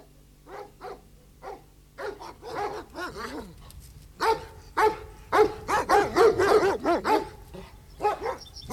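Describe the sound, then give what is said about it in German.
A dog barks many times in short, sharp bursts mixed with a few yips, louder and more rapid in the second half. “Nicht mit Hunden. Sie verschrecken mir die Tiere.”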